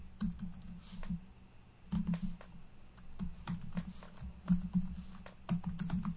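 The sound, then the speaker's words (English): Someone types on a computer keyboard, producing many quick, irregular keystroke clicks in uneven bursts with brief pauses. The clicks are fairly faint over a low steady hum. “Type as fast as I can as we go.”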